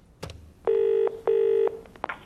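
Touch-tone telephone number being dialed: two clear, steady keypad tones of equal length separated by a short gap, following a click at the start.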